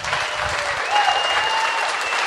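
Audience applause from a live crowd: a steady, dense patter of many hands clapping that fills the whole clip and swells briefly near the middle.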